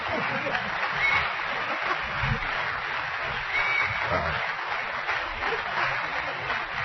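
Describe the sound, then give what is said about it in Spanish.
Audience applause fills the whole stretch as a dense, even clatter of many hands, holding a steady level from start to finish. “Aplausos, por favor.”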